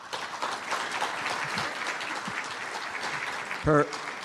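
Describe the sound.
An audience applauds to welcome a speaker at a lecture event. Dense, steady clapping fills the whole stretch, and a short voice cuts in near the end.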